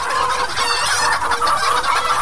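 Chickens cluck loudly and continuously, a dense chorus of overlapping calls from a large flock of poultry raised for agribusiness, with no pauses.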